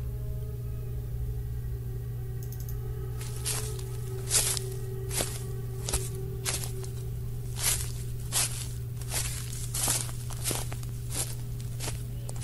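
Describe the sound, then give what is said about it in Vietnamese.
Footsteps crunching and rustling on dry leaves as many people approach from all sides. After a few seconds of quiet, many crisp irregular steps start and run over a steady low hum. “Bên tai của lão Lý Phùng bây giờ lại vang lên tiếng lá cây khô bị dẫm lên xào xạc. Nó vang lên từ bốn phía, từ rất nhiều người đang đi tới.”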